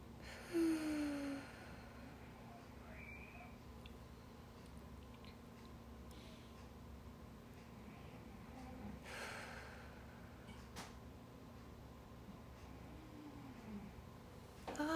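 Deep breathing during a self-care exercise: a few faint, airy breaths separated by long quiet stretches, with one slightly stronger breath at the start.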